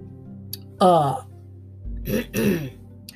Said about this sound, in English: He straightened his tie, smoothed his hair, and cleared his throat.